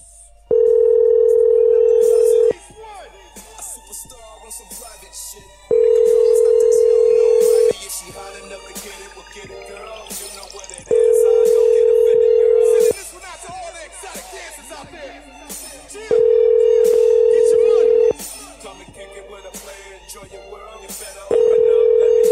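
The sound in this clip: An outgoing telephone call gives five long, steady ringback tones, each lasting about two seconds and evenly spaced. Background voices and busy noise fill the gaps between the rings.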